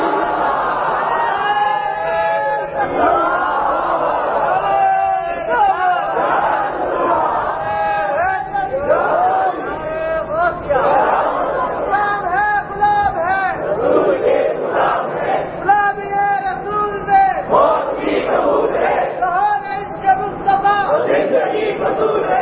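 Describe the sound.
A crowd of Sunni worshippers chants a religious slogan, loud massed voices calling out in repeated waves with no break across the whole stretch.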